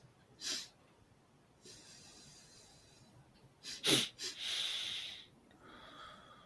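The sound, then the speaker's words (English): Taoist double breath, a quick qigong exercise of two inhalations and one exhalation through the nose: two short, sharp sniffs followed by a longer, breathy exhale, with a few fainter breaths before and after. “So I take the two breaths in through my nose and exhale through the nose.”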